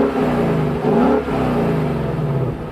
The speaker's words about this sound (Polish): Jakiś ładny dźwięk silnika z jakiegoś klasycznego ośmiocylindrowego silnika typu tam Ford Mustang